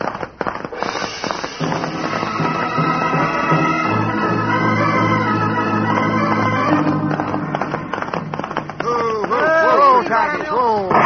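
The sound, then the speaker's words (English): Gunshots fired by a sheriff holed up beyond a ridge ring out as a few sharp, loud cracks over a busy, tonal background. “Somebody's holed up over there. Yeah, it's a sheriff. He's seen his shadow and he's shooting at it, hoping to collect the reward.”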